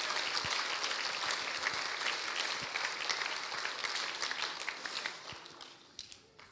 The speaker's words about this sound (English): So why don't we give them a huge hand as well?